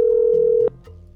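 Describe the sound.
A telephone dial tone sounds as a call to a number is about to be dialed: a steady, even hum that cuts off abruptly after about two-thirds of a second, leaving faint, low tones behind.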